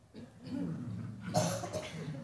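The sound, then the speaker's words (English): Audience members clear their throats together, making a loose chorus of rough, overlapping rasps and grunts with a louder burst midway. “How about clearing the throat?”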